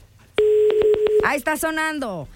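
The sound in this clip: Telephone dialing tones: a quick series of short, evenly pitched electronic beeps, followed by a voice.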